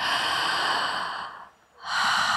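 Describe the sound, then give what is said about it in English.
A deep breath taken to relax: a long, airy breath fades into a short pause before another breath starts, with no talking. “take a deep breath”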